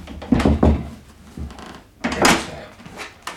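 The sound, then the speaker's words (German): Stuck, rusty door being lifted and forced open, a few heavy knocks and scraping rattles in uneven bursts, louder near the start and again midway, with quieter shuffling between them. “Das Schloss scheint verrostet zu sein. Ja, warte mal, vielleicht klemmt die Tür. Ich heb sie mal was an.”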